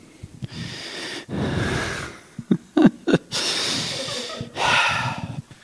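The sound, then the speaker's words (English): A person breathing in deeply several times, long loud breaths with short sharp sniffs and snorts between them, alone without talk. “I'm going to take three breaths. And on the third breath, I'm going to go for it.”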